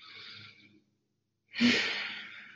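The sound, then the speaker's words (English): One deep human breath: a soft, airy inhale, a short silent pause, then a louder, longer breathy exhale that slowly fades away, with no speech. “it's going to be taking one deep breath”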